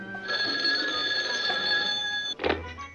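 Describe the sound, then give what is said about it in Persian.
A telephone rings with a bright, steady electronic trill for about two seconds while a call is being placed, then stops with a short clunk. “خب بیا همین حالا بهش زنگ بزنیم”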